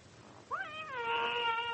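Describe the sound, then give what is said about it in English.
A cat gives one drawn-out meow in a house filled with dozens of stray cats. The meow rises sharply, then holds a wavering tone over faint background hiss. “How many cats have you got in here? There were dozens of them.”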